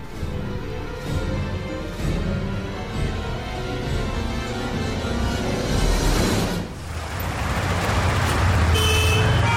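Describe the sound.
A car accelerates hard during a chase in which a man pursues a woman. A loud, steady engine roar runs throughout, with a brief dip just past the middle before the roar surges back, fuller and brighter.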